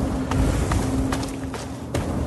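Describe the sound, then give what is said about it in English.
Footsteps of a character walking with an assault rifle in a video game: several soft, evenly spaced steps over a steady low hum, with no talking. “So I'm walking around with my assault rifle feeling like a real badass.”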